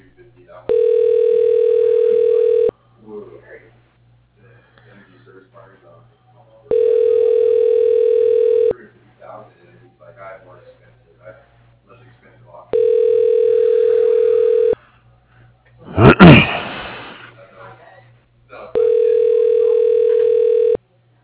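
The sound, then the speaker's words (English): Telephone line tones after dialing an office extension: four long, steady, buzzing tones, each about two seconds, separated by regular pauses. Faint murmuring fills the gaps, and a loud crackling burst comes just before the last tone. “Dialing.”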